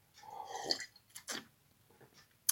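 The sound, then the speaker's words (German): A person takes a sip of a drink. Quiet wet mouth and swallowing noises come in a few soft bursts, with faint breathing in between. “ich trinke nochmal einen Schluck”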